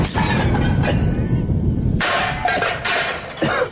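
A grenade explosion in a comedy sketch: a loud, rough, rumbling blast that carries on for about two seconds, followed by a second burst of noise, with no speech.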